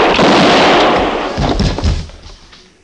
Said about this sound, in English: Look out, he's got a gun! Drop it, drop that gun!